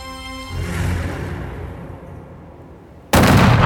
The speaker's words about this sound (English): The bullets ripped through Miles's body.